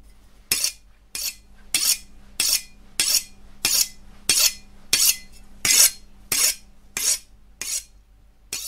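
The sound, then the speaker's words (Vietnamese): An old woman sharpens a knife on a red stone in a gloomy room, producing a steady, even series of about a dozen bright, scraping strokes with short pauses between them. “Trong căn phòng u ám ấy, trong cái không gian đáng sợ ấy, tiếng bà ngoại mài dao và lầm bầm những cái âm thanh gì đó ghê sợ vang lên.”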